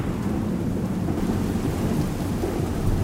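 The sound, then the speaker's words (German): Steady rain pours down with a continuous, even hiss while a low rumble of thunder runs underneath throughout. No voices are heard. “Es regnet. Auf dich drauf.”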